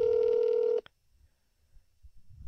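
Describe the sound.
A telephone call rings out on speakerphone. One steady electronic ring tone lasts under a second, then cuts to near silence with faint low noise.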